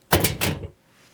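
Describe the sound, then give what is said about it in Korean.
A door jerked open abruptly, heard as a short, loud rattling clack in two quick parts that stops within about half a second and leaves quiet behind. “앳되고 낯선 목소리가 자신의 이름을 부르자 유라는 겁없이 문을 덜컥 열었다.”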